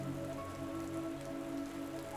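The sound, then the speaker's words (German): Rain falls steadily as a soft, continuous hiss of drops hitting a surface. It is a summer rain clearing the heavy, hot air. The rain is faint and even throughout, with no voices. “Stell dir nun vor, dieser Regen wäscht nun auch die Schwere von dir.”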